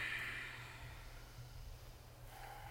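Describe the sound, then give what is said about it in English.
Ujjayi breathing during a yoga session: a soft, hissing breath flows from inhale to exhale, faint and alone, with a fresh breath starting near the end. “Ujjayi. It's this like point to point breath from the inhale to the exhale.”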